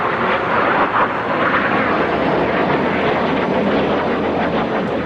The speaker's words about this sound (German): Von den Putschisten kontrollierte F-16 Kampfjets begannen in niedriger Höhe über Ankara zu fliegen, um die Bevölkerung einzuschüchtern.